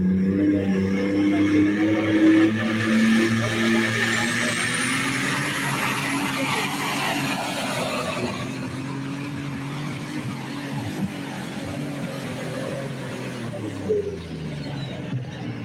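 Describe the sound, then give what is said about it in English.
A farm tractor engine at a tractor pull in Bowling Green gives a loud, sustained roar throughout, with a high whine that climbs and then holds steady. “The tractor called Taking Care of Business. Next one up here at Bowling Green.”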